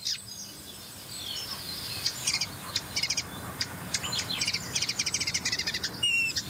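Birdsong from a house sparrow, a nuthatch and a blackbird: many quick, high chirps and short trills in a busy, overlapping series over a low, steady background rumble.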